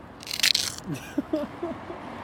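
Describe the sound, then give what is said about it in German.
Someone bites into a Jägermeister ice cream wafer, a brief crisp crunch near the start, followed by quieter soft sounds. “War der Crunch? War das die neue Dose? Ist das ASMR? Schmeckt wie in der Kirche. So eine ehrliche Oblate.”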